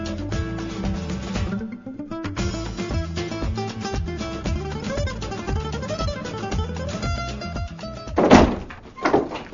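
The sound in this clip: A door slammed hard at home, one loud heavy thud cutting through steady background music near the end, followed by a softer knock.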